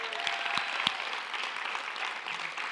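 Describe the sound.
Audience applause welcoming a speaker at a church morning gathering: dense, steady clapping that runs without a break, with a few sharper claps standing out near the start.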